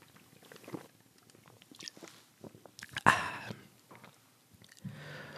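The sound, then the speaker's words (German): A person takes a quick sip of a drink: a short, sharp slurp and swallow stands out in otherwise quiet surroundings. “Ich muss mal kurz einen Schluck trinken im Moment.”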